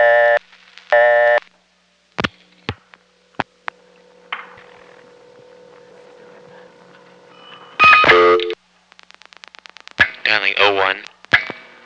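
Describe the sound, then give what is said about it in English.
Telephone line sounds while dialing zero plus one's own number: a couple of short tones, a few dialing clicks over a low hum, then a louder tone burst, rapid beeps and a recorded voice announcement. “Now dialing zero plus my own number.”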